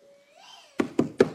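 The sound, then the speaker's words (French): Four sharp, evenly spaced knocks on a door, quick and loud, preceded by a faint steady tone that bends slightly upward. “Toc, toc.”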